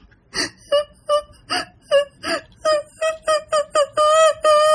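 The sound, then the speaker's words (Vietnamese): A girl crying in muffled, aggrieved sobs: many short, rhythmic wailing bursts in a high voice, the last few drawn out into longer, steadier moans. “lúc này á nghe cái tiếng giống như là tiếng khóc, mà theo cái kiểu ấm ức á”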